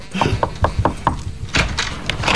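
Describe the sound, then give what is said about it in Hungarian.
Knocking on a door: about five quick, evenly spaced raps, followed by a few louder, noisier bursts. “és aztán természetesen mégis újra bekopognak ezen az ajtón”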